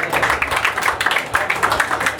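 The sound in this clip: An audience applauds as a comedian takes the stage at a dive bar stand-up show. Dense, loud clapping holds steady with a busy, pattering texture throughout.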